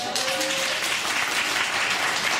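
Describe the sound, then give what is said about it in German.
Applause from a live show audience, a short burst of steady, dense clapping that holds an even level throughout. “Mit einem Applaus.”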